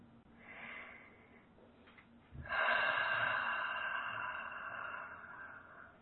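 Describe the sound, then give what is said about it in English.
Deep breathing, in through the nose and out through the mouth: a faint, soft inhale followed by a long, louder, airy exhale that slowly fades, with no talking. “Let's get started right away with some nice deep breaths in through the nose and out through the mouth.”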